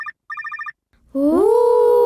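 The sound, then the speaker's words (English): A cell phone rings with quick, bright electronic trills in two short bursts, then a long, loud, wavering tone follows. “The girls called him on his cell phone.”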